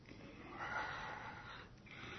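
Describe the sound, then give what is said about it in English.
A deep breath: a long, breathy rush of air that swells and holds, fairly soft, with a brief dip near the end before the airflow resumes. “Now take a deep breath.”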